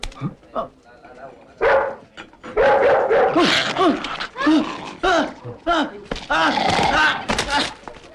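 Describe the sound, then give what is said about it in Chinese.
A dog barks and yips in a rapid, irregular series of sharp calls, some bunched together, with whimpering tones between the louder barks. “你们家是狗咬人了，你看看。”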